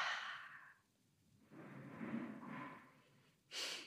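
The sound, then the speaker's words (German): A deep breath is drawn in through the nose and let out through the mouth during a guided relaxation exercise: a soft airy inhale, then a longer, lower exhale, with another quick inhale starting at the end. The breathing is faint and alone. “einen tiefen Atemzug nimmst. Durch die Nase ein und vielleicht auch durch den Mund aus.”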